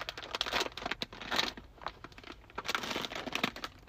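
A bag of chips is crinkled and handled, giving faint, irregular bursts of crackling rustle separated by short pauses.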